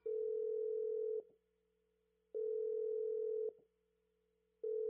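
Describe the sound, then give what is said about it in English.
Telephone ringing tone heard while calling a number: a steady buzzing tone sounds for about a second, stops for about a second, then repeats, with two full rings and the start of a third, and no talk. “Ringing Murray Hill 70093.”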